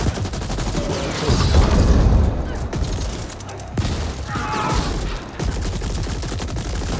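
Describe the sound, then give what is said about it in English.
Gunfire and weapon blasts from a video game, with a grenade launcher firing, form a dense, continuous rattle of loud shots, with heavier swells around the middle. Players may be speaking under the noise. “They're a grenade launcher.”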